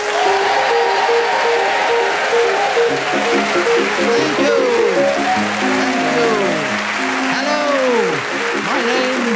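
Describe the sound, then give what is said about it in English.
A brisk piano waltz plays as a radio panel show's theme tune, with an audience applauding throughout and a voice talking over the music. “as the minute waltz fades away once more, it's my huge pleasure to welcome our many listeners”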